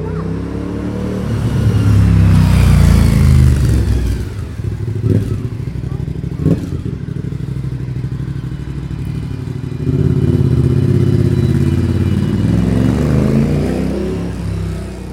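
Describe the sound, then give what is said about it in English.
A motorcycle passes by with a loud, low engine drone that builds, eases for a while, then swells strongly again before tailing off. Some clattering mechanical noise runs through the roar. “Oh, I can hear a bike. There it is.”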